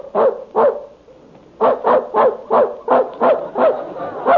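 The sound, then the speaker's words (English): A dog barks in the next room: two sharp barks, a short pause, then a steady rapid run of many more barks at an even, lively rhythm. “There's that dog in the next room barking again.”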